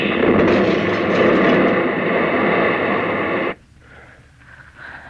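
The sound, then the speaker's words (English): Meteor crashing down in a field: a loud, dense, roaring rumble holds steady for about three and a half seconds, then cuts off abruptly, leaving only faint, quieter sounds. “A meteor. Must have landed out in the field there.”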